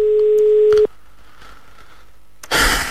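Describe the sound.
Telephone tone heard while calling a mobile phone: a single steady beep lasting under a second, then near silence, followed by a short burst of noise at the end.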